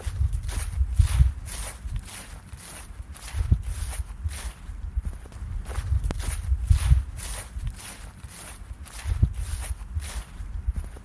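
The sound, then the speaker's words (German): Footsteps walk through a park in December, many even-paced steps in a steady rhythm at moderate loudness, with light soft scuffs between them and no talking. “Heute nehmen wir euch mit auf einen kleinen Spaziergang in den Fahrenwalder Park.”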